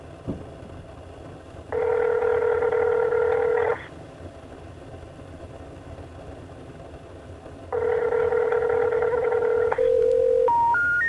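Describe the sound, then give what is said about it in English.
Telephone tones from a speed-dialed call to a disconnected number: two long, buzzing electronic tones of about two seconds each, separated by a pause, then three short tones stepping upward in pitch. “Here, I have his number on speed dial, just in case.”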